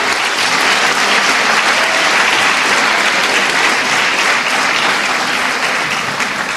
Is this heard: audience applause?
yes